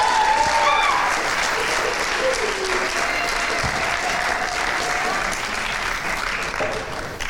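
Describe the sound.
Sustained applause from a church audience welcoming a speaker, dense and steady for the whole span and easing slightly toward the end, with a few voices rising above the clapping.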